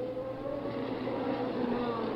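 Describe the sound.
A racing car engine climbing the hill on the Zandvoort circuit during a Grand Prix, a loud, steady, droning roar with sustained tones that holds throughout.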